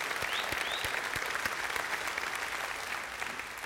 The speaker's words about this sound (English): So why don't we give a warm welcome to all of you that are joining us from Jinx right now.